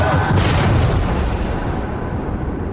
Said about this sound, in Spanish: A medianoche explotaron las bombas, causando destrozos valorados en 128.000 euros.